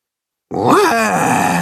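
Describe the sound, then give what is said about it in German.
A voice imitating a scary monster roar: one sustained, growling vocal roar that starts abruptly after a short silence, rises briefly in pitch and then falls, loud and alone. “Du bist das schreckliche Zottelscheusal«, grinst das Katzenhuhn. »Unsere Attraktion. Du musst gefährlich brüllen.”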